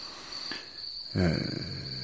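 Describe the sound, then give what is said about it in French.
Crickets chirp on a warm summer night near a mill's boiler house, a thin, steady high trill running throughout, with a brief louder, lower sound breaking in partway through. “Nous sommes parmi les grillons, là, dans cette nuit chaude d'été, assis dans le noir, sur les marches de la chaufferie.”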